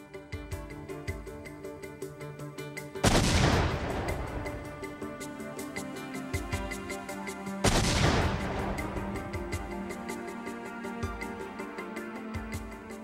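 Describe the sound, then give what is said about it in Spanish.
Recreated pipe bombs detonate in two loud, sharp blasts several seconds apart, each followed by a rumbling decay that fades back to a quieter background. “Para obtener información más detallada, los especialistas recrearon y detonaron las bombas.”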